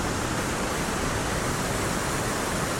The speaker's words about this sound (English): You can hear the hiss and the roar of the water crashing into